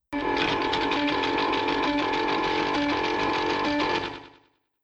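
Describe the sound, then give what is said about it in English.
A prize wheel spins with a fast, steady mechanical clatter, loud and unbroken for about four seconds, then cuts off and fades quickly. “are you going to spin the wheel of destiny? Spinning away there”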